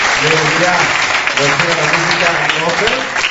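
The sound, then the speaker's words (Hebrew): An audience claps for the actors at a storytelling performance, a steady, moderately loud patter of applause with someone talking over it the whole time. “אני רק אגיד, אתם טיפחו כפיים, כאילו הם סיפרו משהו.”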